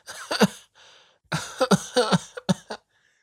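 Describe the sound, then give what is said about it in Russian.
A woman coughs as she coughs up blood and staggers while getting up. A few harsh, rasping coughs come in two clusters separated by a brief pause, with no talking. “Доктор Селки кашляла кровью и шаталась, пока вставала.”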